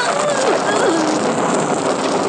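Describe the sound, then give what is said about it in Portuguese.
Rain falling in the sertão, a dense, steady hiss of drops that fills the whole moment evenly without pause. “Chuva! Tá chovendo? Sim, tá chovendo!”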